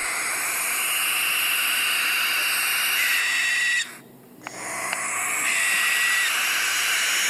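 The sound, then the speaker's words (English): A barn owl gives a long, harsh, breathy screeching hiss. It drops away briefly partway through, then returns just as strong. No other sounds or voices are heard. “That's why a barn owl might sound like this.”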